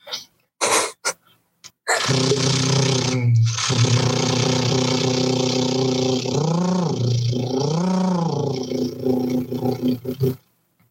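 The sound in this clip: A voice imitates a car engine being cold-started with the ignition key. Short sputters give way to a loud, sustained growling drone that swells and wavers twice in pitch, then cuts off abruptly near the end.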